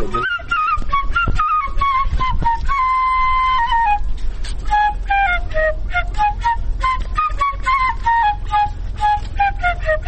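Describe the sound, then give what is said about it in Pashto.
A shepelai flute plays in a garden in Kabul: a clear, sustained melody of many notes, moving mostly in falling phrases, heard over a steady low background rumble. “مونږ خو له ډېر لرې د تاسې د شپېلۍ په غږ پسې راغلو.”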